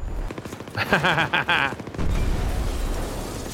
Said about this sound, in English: Holy shit, they blew up the fucking part of this building.